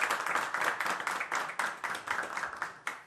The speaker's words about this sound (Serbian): Još jedan veliki aplauz, naravno, Zizi i Nataša.